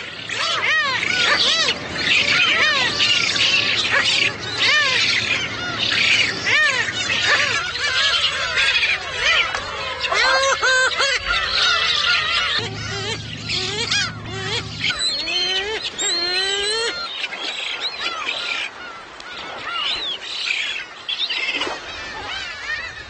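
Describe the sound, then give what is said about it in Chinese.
Black-faced spoonbill chicks squabble noisily over food, with many harsh, overlapping squealing calls that continue loudly for the whole stretch over a low steady hum. “雏鸟们为争抢食物开始了吵闹，不过雏鸟们不会因为争抢食物而进行大斗”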